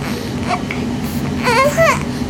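A fussy baby babbles with short, wavering vocal sounds that bend up and down in pitch, growing a little louder toward the end, over a steady low background hum.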